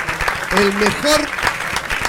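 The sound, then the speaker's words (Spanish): Audience applause, a loud, steady wash of many hands clapping, with voices and cheers rising over it throughout. “Vamos a darle un fuerte aplauso, la verdad.”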